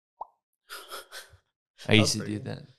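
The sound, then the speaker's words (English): A single short mouth pop, a hollow wet plop with a quick upward pitch flick, comes first; after a pause, a person talks. “I used to do that popping noise a lot, though.”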